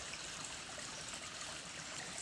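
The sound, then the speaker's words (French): Flowing water at the water's edge makes a soft, steady rushing burble that stays even and unbroken throughout. “j'ai eu envie de me caler au bord de l'eau, qui me semble être le plus grand réseau social du monde.”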